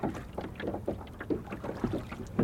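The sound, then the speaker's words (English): Water laps against a boat in an outdoor ambience, making many soft, irregular sloshes and small splashes of fairly even loudness over a low, breezy rush. “I'd really like to also capture the sounds of recording and the water lapping against the boat as just part of the overall ambience”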